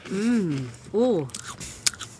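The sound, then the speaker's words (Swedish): Someone bites into a cracker topped with spread, making one short, crisp crunch right after people talk. “Berätta, där tar han ett bett.”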